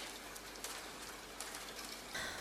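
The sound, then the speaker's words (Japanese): Persistent rain falling steadily outside a fast-food restaurant, a continuous soft hiss with a few faint drop-like ticks, no voices. “雨全然止まないんだけど。”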